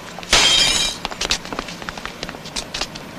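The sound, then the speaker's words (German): A glass window pane shatters after being hit by a football in the street, one loud bright crash, followed by a scatter of smaller clicks and tinkles of falling shards. “So, und schon eine Scheibe kaputt. Das habe ich ja kommen sehen. Fußball spielen mitten auf der Straße.”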